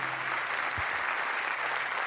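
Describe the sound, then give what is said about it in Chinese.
Audience applause, a fairly faint, steady patter of many hands clapping that stays even throughout the short stretch. “感谢大家掌声哦”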